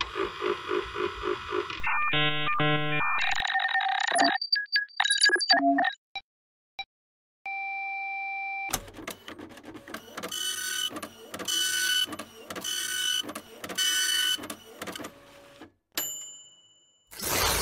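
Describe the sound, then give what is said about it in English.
A computer starting up gives a string of electronic beeps, chirps and sustained tones, then a busy, stuttering pulsed pattern, and ends with a high tone. “let's get the computer fired up here”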